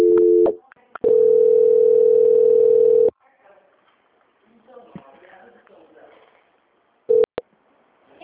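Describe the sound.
A telephone line tone plays while a bank call is transferred to quality control: a short double beep, then a steady, even tone lasting about two seconds, faint murmuring, and one brief beep near the end.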